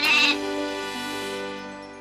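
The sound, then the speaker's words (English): One drawn-out goat bleat, a steady nasal tone that starts louder and slowly fades, heard alone. “The goat says, in its very special way, meh, meh.”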